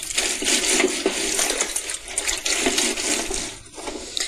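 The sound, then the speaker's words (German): Small laundry items are washed by hand in water on a washboard, scrubbing out stains among piles of washing: continuous sloshing, splashing and rubbing, fairly loud and steady with a short dip near the end, no talk. “Die kleinen Stücke wasche ich natürlich mit der Hand und versuche, die Flecken rauszubekommen auf unserem Waschbrett.”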